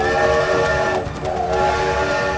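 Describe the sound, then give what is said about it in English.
A train whistle sounds as a sustained, chord-like blast of several steady tones over a low rail rumble. It dips briefly in the middle, then resumes at full strength. “The whistle of a train sounded.”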